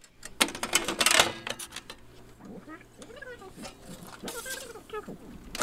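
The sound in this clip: An old reel-to-reel tape machine runs with its pinch roller engaging. Sharp clicks and busy mechanical clatter come first, then quieter intermittent clicks under voices.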